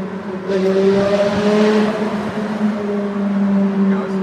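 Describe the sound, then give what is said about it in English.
Car engine revving inside a tunnel gives a loud, steady harmonic drone that swells briefly partway through and stays strong to the end, with no clear talk over it. “He'll throw another. He's got another rev to throw.”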